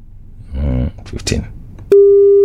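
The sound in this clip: A telephone busy tone sounds after a call is rejected. A brief voice and some rustling come first, then a loud, steady electronic tone cuts in and holds to the end.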